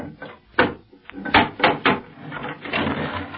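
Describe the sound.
A wooden box of nails being opened: a few hard knocks and clunks, followed by a longer stretch of clatter.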